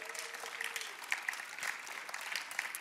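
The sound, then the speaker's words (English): Audience applause for the production team during a church sermon: a faint, even wash of many hands clapping, with a few sharper claps standing out, sustained throughout. “let's give our production team a big round of applause”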